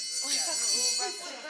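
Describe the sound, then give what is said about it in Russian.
An electric school bell rings, a shrill continuous ring that holds steady through the whole short stretch, with fainter lower sounds shifting beneath it. “Звонок.”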